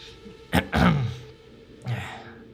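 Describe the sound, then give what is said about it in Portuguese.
Throat clearing from a man about to address a meeting: a few rough, breathy rasps. A short sharp one comes first, then a longer gravelly scrape, then a softer final clear. No words are spoken. “Limpei a garganta antes de começar a falar.”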